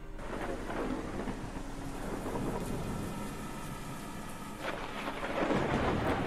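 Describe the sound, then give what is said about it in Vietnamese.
Heavy rain pours down in a dense, steady hiss while deep thunder rumbles underneath throughout. “Ngoài trời bắt đầu đổ mưa như chút nước, thi thoảng vang lên những tiếng sét đinh tai nhức óc.”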